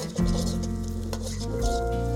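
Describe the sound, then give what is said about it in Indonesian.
Shallots, garlic, onion, lemongrass, lime leaves and ginger sauté for a sweet and sour crab dish, giving a continuous, even sizzle with stirring that stays steady throughout. “menu kedua rajungan asam manis pertama-tama tumis bawang merah bawang putih bawang bombay serai daun jeruk dan jahe hingga harum”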